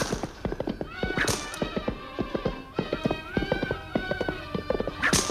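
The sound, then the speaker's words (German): Donkeys galloping along the left bank of the Nile, their hooves clip-clopping in a quick, steady rhythm. The many sharp hoofbeats run densely and loudly from start to finish. “Im gedämpften Eselsgalopp ritten wir am linken Nilufer entlang”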